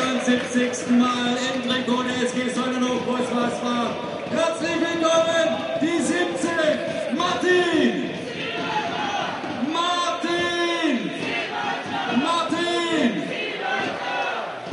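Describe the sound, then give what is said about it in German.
Football fans of Sonnenhof Großaspach chant in unison at a match, a loud crowd repeating sung phrases in a steady rhythm that carries through the whole stretch. “So, begrüßt von dem sangeskräftigen Chor der Sonnenhof Groß-Asbacher.”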